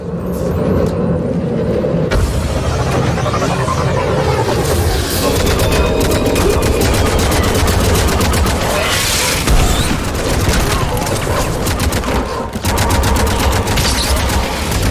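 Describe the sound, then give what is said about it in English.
Video game battle gunfire as ground forces shoot at airborne shuttles. Rapid fusillades and booms blend into a dense, continuous rumble of shots, with a voice talking over it. “There's a lot of shots coming up from the ground. Some of the shuttles are being destroyed in the middle of the air.”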